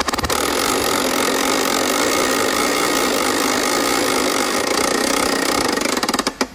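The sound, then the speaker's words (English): A prize wheel spinning gives a dense, loud, rapid ratcheting clatter that runs steadily for several seconds, then slows into a few separate clicks as it comes to rest. “so let's spin the wheel.”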